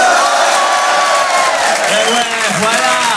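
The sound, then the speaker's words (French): A comedy show audience cheers and makes noise, a loud, dense wall of shouting and clapping that holds steady throughout. “Et je suis hyper content de jouer devant un public comme vous. Public de feu, du bruit.”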